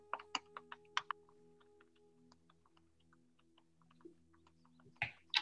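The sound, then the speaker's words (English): Faint typing on a computer keyboard as a book title is entered: many soft, irregular key clicks over a low steady hum, with a few sharper taps near the start and the end. “So I'm going to type in here the title of a book.”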